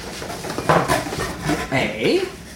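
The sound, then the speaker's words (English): Rattling, scraping and clattering as a box of Haunted Mansion merchandise is opened and its contents handled, in uneven bursts under a person talking. “So let's open up this box. We'll just quickly run through the contents”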